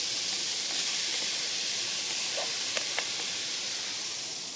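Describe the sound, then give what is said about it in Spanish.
Mashed tofu and onion frying in a hot pan give a steady, even sizzling hiss throughout, with a few faint pops and clicks. “se lo podemos agregar a la cebollita, que se cocinó bien rápido porque ya nuestra sartén estaba caliente.”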